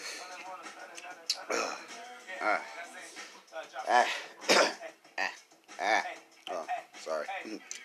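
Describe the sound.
Coughing and throat clearing to bring up phlegm: a run of rough, gravelly bursts, some voiced and some harsher, rising and falling in loudness over several seconds.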